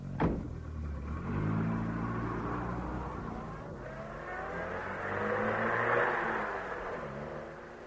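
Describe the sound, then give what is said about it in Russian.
A police car's engine hums as it drives away. The quiet motor noise swells and shifts pitch, with a brief sharp click at the start and a louder surge near the end. “Слышно, как уезжает полицейский автомобиль.”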